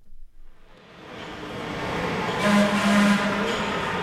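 A Los Angeles Metro D Line subway train runs with a steady, rising rumble and a dense rolling roar, joined by a faint tonal whine. No voices are heard.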